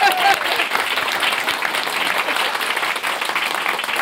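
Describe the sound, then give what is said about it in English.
Audience applause at a recorded live show, with steady, dense clapping that holds at an even loudness for about four seconds and a brief vocal cheer at the start. “So why don't we give all those folks out there in Radio Land a big hand?”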